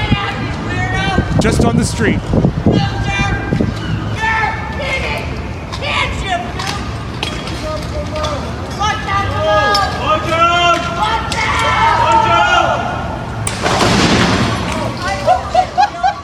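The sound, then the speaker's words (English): People fighting, with a sofa thrown from a 19th-floor window down to the street: a chaotic tangle of shouting voices and scuffling thumps, then a loud, broad crash near the end before more voices and sharp knocks. “Here's the sound of fighting people and a sofa being thrown from the 19th floor.”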